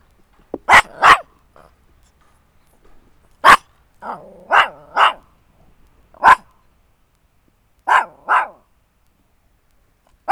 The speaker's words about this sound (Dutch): Nu bedreigd door een hondje.